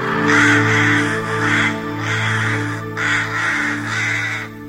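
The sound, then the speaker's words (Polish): Large ravens caw loudly outdoors, harsh raspy calls in several overlapping bursts over a steady low drone, with no voices. “Najpierw kruki, wszędzie duże i głośne.”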